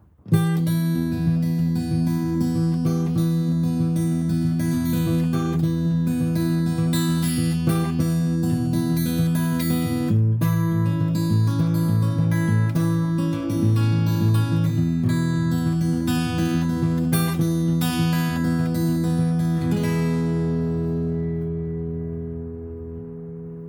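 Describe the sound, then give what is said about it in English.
An acoustic guitar plays a Piedmont blues finger-picking roll, with a steady, rolling pattern of plucked notes over an alternating bass. It ends with the last notes ringing and fading out. “So, what is the finger-picking pattern? Well, the Peidmont roll sounds like this.”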